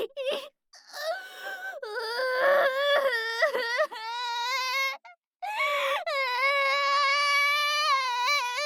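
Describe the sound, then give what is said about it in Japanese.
A person crying and sobbing: high, wavering wails in several drawn-out bursts, broken by short pauses and catching breaths, loud and with nothing else behind them. “泣き出しちゃった。”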